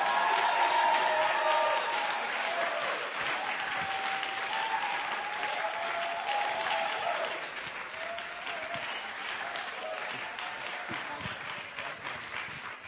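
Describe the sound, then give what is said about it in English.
An audience applauds a pastor being welcomed to the stage, a dense, steady wash of many hands clapping that holds strong for about thirteen seconds and eases only slightly toward the end. “So without further ado, let's put our hands together.”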